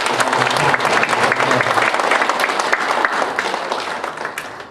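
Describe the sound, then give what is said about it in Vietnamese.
An audience applauds to welcome a Buddhist monk: sustained, dense clapping at an even level that gradually thins and fades at the end. “Bây giờ tôi mới xin quý vị một tràng pháo tay để đón chào Thầy.”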